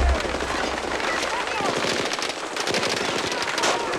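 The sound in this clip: Many rapid bursts of automatic gunfire in a multiplayer shooter video game crackle loudly and almost without pause, while players talk over the shooting.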